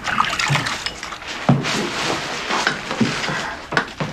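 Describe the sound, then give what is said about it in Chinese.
Hands being washed under running water, a steady splashing rush with irregular wet accents throughout. “快洗手。”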